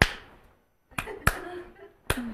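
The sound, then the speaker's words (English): A card is slapped against a hand, giving a few sharp, snappy smacks spaced apart, with quieter pauses and faint vocal tones between them. “That was slapping for those radio folks. Direct. I was slapping the card on my hand.”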